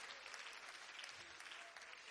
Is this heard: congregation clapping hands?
yes